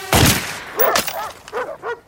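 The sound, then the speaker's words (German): Service pistol gunshot fired at a drone: a sharp, loud crack at the start, followed by a second burst about a second later and several short chirping tones. “Selbstverständlich bleibt der Schuss nicht unbemerkt.”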